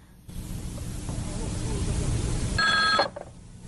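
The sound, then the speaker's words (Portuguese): A telephone rings in a short, bright burst near the end, following a stretch of noisy, hissy background sound. “tá chamando. Tá chamando o Chapolin.”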